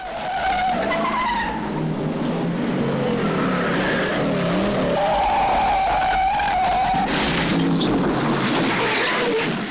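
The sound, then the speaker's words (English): Tyres skidding and squealing as a sedan and a Mustang race through a car chase, with long wavering screeches over a continuous engine roar. The sound stays loud throughout, and a harsher burst of squeal breaks out near the end. “Frank screams to a halt in a cloud of smoke, reverses up and swings a right, burning yet more rubber as he goes.”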